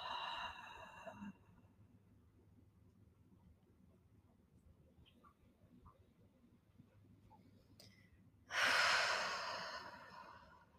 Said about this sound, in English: Take another deep breath in through the nose. And then exhale slowly out through the mouth.